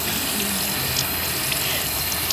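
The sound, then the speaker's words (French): Water running from a tap into a sink for hand washing with soap, a continuous, even splashing hiss that keeps a steady level throughout, with no voices. “Donc ça commence par le savon. Avec l'eau.”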